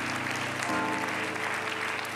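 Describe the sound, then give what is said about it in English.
A church audience claps in praise during a service, a dense, steady wash of many hands that runs unbroken throughout, with held instrumental tones sounding underneath. “Let's give the Lord one more good hand clap of praise.”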